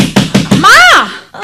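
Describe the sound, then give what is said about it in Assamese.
Three loud, evenly spaced knocks on a door, followed right away by a voice calling out. “দুৱাৰত কোনোবাই ঢকিয়াই আছে।”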